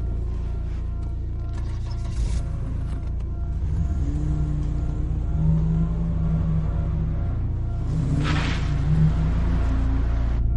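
A car engine rumbles low and continuously as the car drives off, with mild swells in revs throughout.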